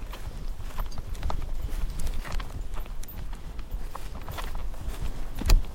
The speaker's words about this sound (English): He's not sure of this walking business. Driven horses usually just want to go.